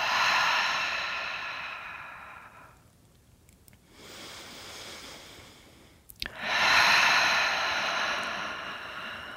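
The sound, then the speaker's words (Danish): Slow, deep breaths during a yoga pose on a mat: a long, loud, airy exhale, then a quieter drawn-out inhale, then another strong, steady exhale, with no talking. “er et par dybe vejrtrækninger her.”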